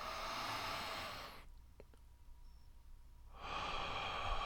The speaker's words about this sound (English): The like long breathe in through the nose, out through the mouth kind of deal.